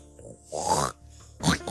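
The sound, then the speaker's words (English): A human voice imitates a loud muskox snort with a few short, rough, nasal grunting bursts; the middle burst is the longest, and the final one is forceful and breathy. “Not a piggy snort. That was like a piglet, like a big snort. That was not a snort either. I'm not very good at snorting sounds.”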